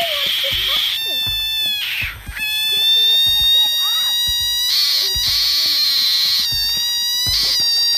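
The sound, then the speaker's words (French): An endemic frog, inflated like a balloon, lets out loud, shrill, scream-like cries. The harsh, sustained calls run almost continuously and are broken by a few short gaps. “Voilà le cri de cette grenouille, plutôt effrayant”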